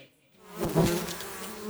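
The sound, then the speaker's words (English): Stingless Melipona bees buzz at an open beehive in the Peruvian Amazon rainforest. After a brief quiet start, the soft, steady droning swells and holds at a moderate level. “There is no danger in opening this beehive without protection gear. These bees are stingless, the Melipona bees, a species as gentle as it is vital for the health of the rainforest.”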